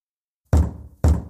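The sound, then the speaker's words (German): Two dull, low knocks strike a ship's cabin door about half a second apart. Each is a single firm thud standing alone against silence. “Am 9. Oktober klopft es an Blys Kabinentür.”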